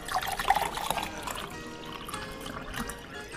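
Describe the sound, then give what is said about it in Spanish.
Wine is poured into a glass in a soft trickling stream lasting a few seconds, a little stronger at the start and then steady and faint. “Ponme otro vaso de vino.”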